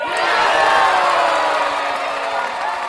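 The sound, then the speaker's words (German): A crowd cheers after Ivory Coast wins a football final against Ghana 9-8 in a penalty shootout. It is a loud, sustained roar of cheering and whooping voices with scattered shouts that stays dense and even throughout. “Nach dem Elfmeterkrimi im Finale, das die Elfenbeinküste gegen Ghana mit 9-8 gewinnt, liegen sich alle jubelnd in den Armen.”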